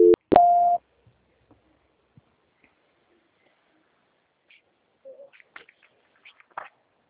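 A telephone call transfer tone: a sharp click, then a short, steady mid-pitched beep of under half a second, followed by near silence and a few faint scattered noises.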